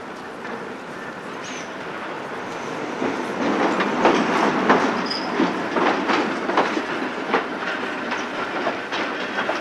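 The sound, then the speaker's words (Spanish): A train stands at a station, about to depart from track 3 for Medina del Campo. Its steady rumble carries a rhythmic clickety-clack and a constant hiss, with a couple of brief, thin high squeals from the wheels. “Próximo tren con destino Medina del Campo, situado en vía 3. Próximo a efectuar su salida.”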